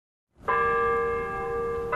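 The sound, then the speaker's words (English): A clock tower bell chimes on a university campus in northwest Washington, giving a bright, ringing tone with long sustained overtones that hold steady, then a fresh strike just before the end. “At Howard University in northwest Washington, the clock tower chimes as students scurry between classes”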